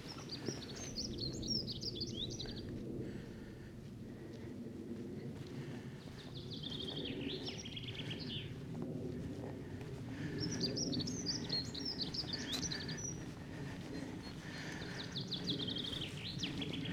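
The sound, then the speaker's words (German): Small birds chirp outdoors as nature wakes in spring, with several bursts of high, rapid chirps over a steady low background rumble. “Aber die Natur erwacht. Man hört überall schön die Vöglein zwitschern.”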